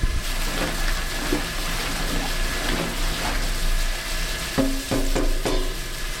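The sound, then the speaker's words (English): A long wooden paddle stirs the mash for a Belgian-style table beer, mostly German Pilsner malt with oat flakes, in a large stainless steel tank. The churning and swishing is steady and wet, with a few sharper knocks near the end. “So this is our very authentic Belgian beer mash paddle, custom made by a friend of a friend, and I'm going to stir the mash.”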